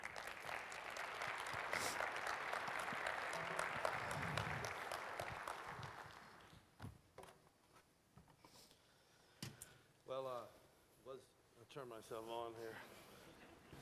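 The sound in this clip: Audience applause welcoming a guest speaker to the stage at a morning service, a steady wash of clapping for about seven seconds that fades out before a man begins speaking.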